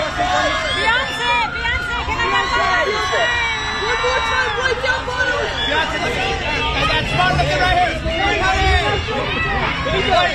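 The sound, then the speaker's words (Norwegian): Journalists crowding a red carpet event shout questions: a dense, constant wall of overlapping voices calling out at once, loud and unbroken from start to finish. “Skal få høre lyden fra hvordan, hvordan det på en rød løper.”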